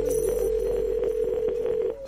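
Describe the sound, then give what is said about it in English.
Dialing a phone number: a steady, mid-pitched telephone line tone hums continuously, broken by several faint clicks, then stops abruptly after about two seconds. “I'm going to dial up this number here. Hold on a second.”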